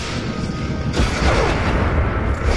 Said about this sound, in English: Oh, okay. Lots of bombs. Okay, the tear gas is coming.